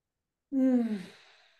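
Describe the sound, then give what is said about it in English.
A single deep breath taken with eyes closed during a calming exercise, hands resting on the chest. It comes as a long, soft, sighing exhale of about a second that fades out slowly, with no talk around it. “And then just spending a moment with the hands on that, and I'm closing my eyes. Some people might not like to do that, and taking a breath. So I'm going to do that now.”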